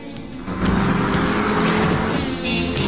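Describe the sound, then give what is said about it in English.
A car accelerates as the driver floors the gas toward a canyon's edge. The engine roar surges up after about half a second and holds strong and sustained to the end. “Thelma and Louise clasp hands, smile, then hit the gas. The car shoots off the edge”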